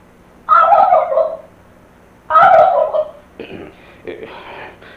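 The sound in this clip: A turkey gobbling, the bird kept inside a business's premises, with two loud rattling gobbles followed by a few fainter calls.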